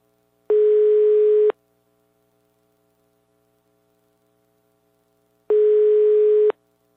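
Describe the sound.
A telephone ringback tone sounds while a call is being placed: two steady, one-second bursts of a mid-pitched tone, separated by about four seconds of near silence with only a faint hum.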